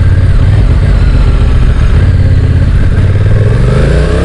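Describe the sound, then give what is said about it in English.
A touring motorcycle's engine drones loudly and continuously while riding around town, with broad rushing noise over the low hum and the engine note climbing slightly toward the end. “The beauty of this bike is you can use it for touring, but you can also use it for commuting. I'm just riding around town now and it's fantastic.”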